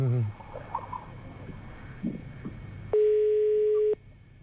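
Telephone ringing on a call: a single steady ring tone of about one second rises clearly above a stretch of quieter, muffled background noise.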